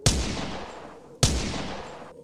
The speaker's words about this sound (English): If you take another step toward me, I'll fire.